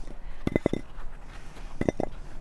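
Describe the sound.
Fairly uniform, thin-skinned potatoes dropped into a cooking pot land in two quick clusters of hollow, clinking knocks, each with a few hits in fast succession. They are moderately loud over a quiet background, with no talk.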